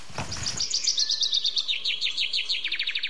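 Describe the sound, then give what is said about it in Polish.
Chaffinch song: a bright, rapid trill of many high notes that steps downward in pitch, then ends in a quicker closing flourish. The bird sings alone, loud and clear. “Jest to, proszę Państwa, opowieść o ziębach.”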